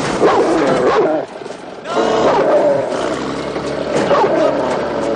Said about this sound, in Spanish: Se gira lentamente y descubre a un pastor alemán que le enseña los colmillos en actitud amenazante.